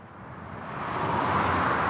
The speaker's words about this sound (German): Ein ganz normaler Nachmittag an der Autobahn südöstlich von Innsbruck bei der Raststätte Ampasser Hof. Lärm und Gestank.